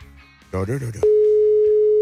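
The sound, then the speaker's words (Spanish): A telephone line tone sounds after dialing. A short burst of voice comes first, then a single pure, steady mid-pitched tone holds for about a second before cutting off. “Ahí estamos ya. Estaba marcando,”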